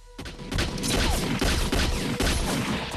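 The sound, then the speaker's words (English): Heavy crossfire gunfire in a shootout around a car: after a brief quiet start comes a dense, rapid stream of loud overlapping shots, sustained almost without a break. “Shaft and Diane make for Rassam's car in a hail of crossfire bullets. He fires into people's crew, hitting Lucifer.”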